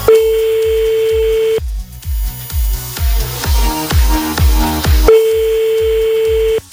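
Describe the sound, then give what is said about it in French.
An outgoing phone call rings unanswered: a steady, mid-pitched ringback tone sounds twice, about a second and a half each, separated by a longer gap, while rhythmic music with a thumping beat plays underneath. “Pas de bol sur celui-là, on va appeler un autre. Oh, c'est pas grave, on en appelle un autre. Celui-là il décroche pas, il a plus envie de jouer.”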